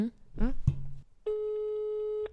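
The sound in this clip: Ringback tone of an outgoing telephone call: a single steady, even tone lasting about a second. It comes after a short stretch of people talking.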